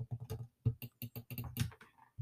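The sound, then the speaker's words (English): A computer mouse clicks rapidly, making many light, crisp taps in an irregular rhythm, faint and heard alone without talk. “Look, you can hear my fingers. Click. You can hear everything in my room, literally. Mouse.”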